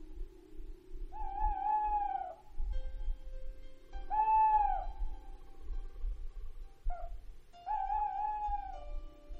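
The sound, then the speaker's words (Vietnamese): An owl hoots three times at night near a dark village road. Each call is a clear, wavering tone lasting about a second, separated by pauses, over a faint low rumble. “Con cú rùng mình, đoạn tung cánh bay vút lên trên nền trời u tối.”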